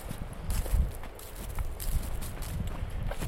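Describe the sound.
Footsteps walking outdoors along a forest edge, a few muffled, soft thuds on open ground over a steady background hiss.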